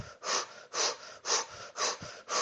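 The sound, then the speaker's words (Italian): Quickened, rhythmic breathing while holding a side-bending stretch with arms raised and fingers interlaced: five breathy, airy breaths in steady succession, fairly quiet and with no talk. “E per farlo posso provare ad accelerare un po' il respiro.”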